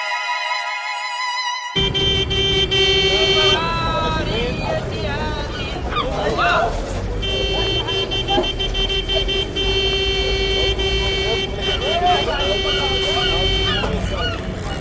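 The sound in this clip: Car horns honk in crowded city-centre streets of Algiers in December 1991. Several horns in different pitches toot and hold over continuous traffic noise, some long, some short, overlapping at times.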